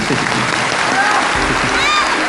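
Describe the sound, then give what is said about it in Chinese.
Applause from the audience of a televised quiz contest, a dense steady wash of clapping that holds at an even, fairly loud level for the whole stretch without pause. “我们把掌声送给王东丽，送给王雨涵。”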